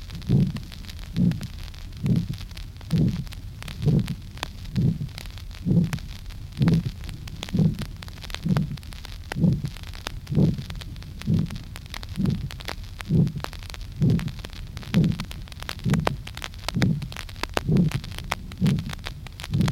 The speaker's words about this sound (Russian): прослушайте характерный грубый систолический шум при стенозе устья аорты, где второй тон отсутствует.